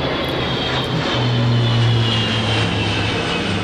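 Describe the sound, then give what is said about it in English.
A transport aircraft flies overhead with a loud, continuous engine roar and a low droning hum that holds steady through the whole stretch. “a transport aircraft going overhead”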